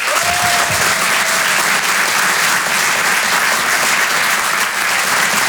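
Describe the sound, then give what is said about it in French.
Applause from a comedy-club audience for a comedian on stage, dense and loud, holding a steady, even roar throughout. “Vous pouvez l'applaudir très fort, Miri sur Rire et Chanson. Bravo Miri.”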